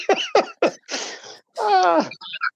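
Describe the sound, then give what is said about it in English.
A person imitates a bull snorting. There are three short, forceful nasal bursts, then longer breathy, rasping blows, and a few small sputters at the end. “Because I don't know what a bull does. They snort.”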